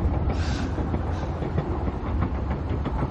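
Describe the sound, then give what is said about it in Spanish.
A train travelling at full speed: a dense, steady rumbling roar with faint rhythmic clatter running throughout, fairly quiet and without voices. “El tren circula a toda velocidad.”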